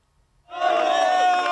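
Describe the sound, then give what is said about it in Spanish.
Cheering and raised voices from palace staff at Zarzuela greet the arrival of the World Cup trophy, bursting in loudly after a brief quiet moment and holding at a steady, dense level. “Así llegaba la Copa del Mundo a Zarzuela, entre vítores y aplausos de todo el personal de Palacio.”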